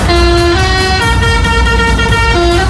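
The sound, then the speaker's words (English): Musical air horn on a lorry pulling into a street for a travelling fair, playing a song tune: loud, sustained, buzzy tones that step between pitches in a melody for the whole clip. “as the lorries were pulling into Walton Street, one of them pressed their horn and made this noise.”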